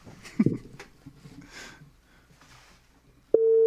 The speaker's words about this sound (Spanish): Ya está sonando, a ver qué... A ver si contestan.